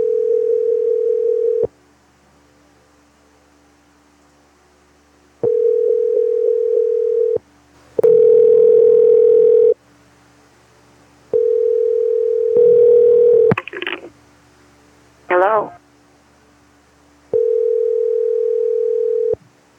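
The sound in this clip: Telephone ringback tones sound while a call is being placed. Four steady, mid-pitched tones of about two seconds each repeat at even intervals, and a few other short sounds fall in the gaps between them.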